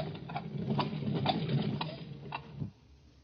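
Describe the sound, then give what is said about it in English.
A taxi cab's engine idling, a low, steady rumble with faint regular ticking over it that drops away abruptly near the end. “There's a cab. Let's hop it and ride the rest of the way.”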